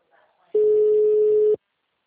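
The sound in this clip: A telephone tone after a dropped call: one steady mid-pitched beep lasting about a second, loud and alone, after faint brief sounds.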